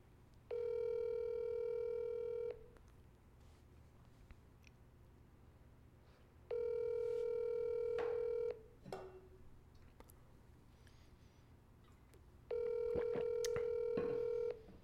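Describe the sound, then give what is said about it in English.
Outgoing phone call ringing on the line: three evenly spaced ringback tones, each about two seconds long, with quiet gaps of roughly four seconds between them and a few faint clicks. “I'm going to call him and see if he's... All right. All right. Let's see if he answers.”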